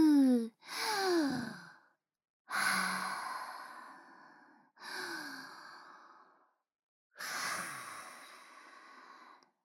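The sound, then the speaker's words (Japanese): Deep breaths drawn in and out to calm down before an ear cleaning, five slow airy breaths separated by short pauses, some voiced like soft sighs. “耳掃除の前にまず深呼吸して落ち着こう。”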